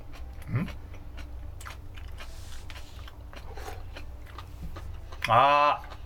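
Someone eats a dish containing sliced garlic: soft biting and chewing clicks scattered through quiet moments, with a brief vocal murmur early on and a short voiced sound near the end.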